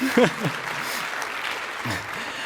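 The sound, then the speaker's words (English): Audience applause, steady clapping that continues throughout, with a voice speaking briefly over it at the start and again near the end. “Please, a round of applause, because he was one of the guys that made me start this.”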